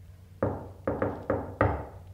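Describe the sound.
Knocking on a door: five solid knocks in an uneven rhythm, two of them close together, each with a short decaying resonance, fairly faint and with no voices over them.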